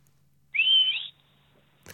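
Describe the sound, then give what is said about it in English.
A single short mouth whistle of the kind used to call dogs, a clear high tone that rises slightly and then holds for about half a second, heard alone against near silence. “That's my dog whistle. Literally, that's the whistle I used to call the dogs.”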